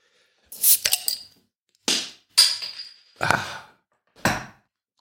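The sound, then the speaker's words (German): A bottle of Augustiner Edelstoff, a Munich beer, is opened with a few sharp hissing bursts and clicks, separated by short pauses, with no talk. “Deswegen Edelstoff von äh, Augustiner aus München. Gebraut nach dem Reinheitsgebot. Und das öffne ich jetzt.”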